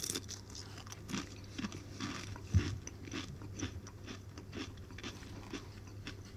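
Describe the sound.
Ready salted crisps crunch as they are bitten and chewed, giving many faint, irregular crackling bursts with no talk.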